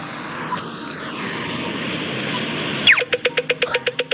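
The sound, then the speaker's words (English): A voice imitates an Irish pedestrian crosswalk signal, a quick downward-sweeping zap followed by a rapid run of many sharp, evenly spaced beeps. Before it comes a steady rushing noise. “started making the sound of the crosswalks in Ireland. They make a sound, I guess, for people, visually impaired like people. They sound like this.”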